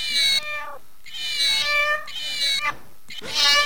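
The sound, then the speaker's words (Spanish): A cat meowing several times in quick succession: loud, high, drawn-out meows separated by short gaps. “Ese gato es lo más. Tenemos un gatito acá.”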